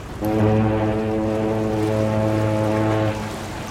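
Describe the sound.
A boat's horn sounds one long, low, steady blast of about three seconds over faint background noise.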